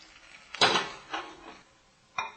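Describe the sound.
A plate being set down on a surface to serve soup gives three short, faint hard knocks, the first the loudest, then a softer one and a final sharp clack after a pause.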